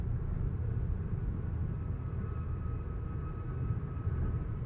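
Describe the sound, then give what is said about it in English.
A car driving through road work beside a wall makes a continuous low road rumble and drone. The level stays even throughout, with no distinct events. “I'm kind of in road work right now, so I'm driving beside a wall, which is never fun to do.”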